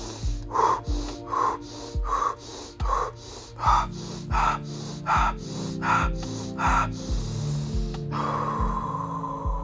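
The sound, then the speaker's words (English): Energising breathing, quick inhales through the nose and exhales through the mouth, repeated many times in an even, fast rhythm of sharp, breathy gasps. “Inhale nose, exhale mouth.”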